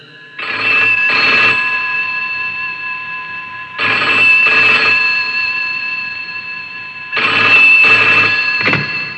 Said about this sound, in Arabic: دعنا نتصل به ونسأله. يلا.